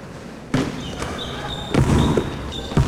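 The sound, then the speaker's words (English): A basketball bounces back after a free throw, landing in a few dull, irregular thumps with short gaps between them. “He sees the team make every shot, so he attempts a free throw. Nothing but net. The ball bounces right back to him.”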